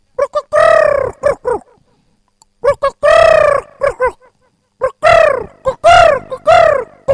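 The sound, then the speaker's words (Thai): A dove offered for sale coos loudly in repeated bursts of rhythmic, low, hollow notes separated by short pauses. “เอ้าขายนกเขาต่อไป เดี๋ยวให้ขันร้องขันซะกันเด”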